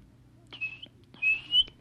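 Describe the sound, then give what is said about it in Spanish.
A swallow's song, heard as two clear, high whistled notes, the second one longer, each faint and brief with quiet gaps between them. “Cantó la golondrina”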